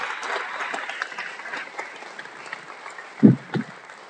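Audience applause welcoming a guest onto a stage: a steady, moderate patter of clapping throughout, with two low thumps standing out near the end.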